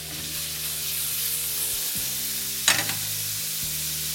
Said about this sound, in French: Je baisse un peu le feu sous les oignons. Je vais les faire suer sans qu'ils ne colorent. Je mélange bien, je répartis dans la matière grasse